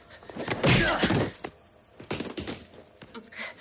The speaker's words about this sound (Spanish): Decide salir, apuntando con su pistola, cuando tras él aparece el hombre de la chaqueta, el cual le golpea en la cara de un puñetazo.